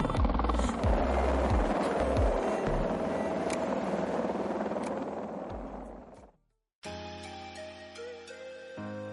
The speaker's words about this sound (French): L'hélico arrive.